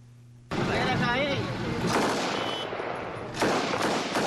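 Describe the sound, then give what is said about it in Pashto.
Celebratory gunfire shot into the air at a wedding in Paktia: dense, continuous bursts of rifle fire under a man's voice, growing louder again near the end. “دا د جګړې یا د کوم فلم د جنگي صحنې غږ نه دی، بلکې په پکتیا کې د واده په مراسمو کې د ټوپک د هوایی ډزو غږونه دي چې ظاهرا د خوشحالۍ څرګندولو په خاطر کوي.”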